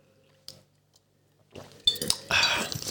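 Wine glasses clink in a toast between wine drinkers: a quiet stretch with a faint tap, then a burst of bright clinking and rustling handling noise that keeps going to the end.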